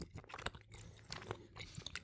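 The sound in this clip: Chewing of a soft, dark red fruit gummy bear slightly larger than a standard one: moist, sticky mouth noises in an irregular run of many small bursts, moderately quiet, with no talking.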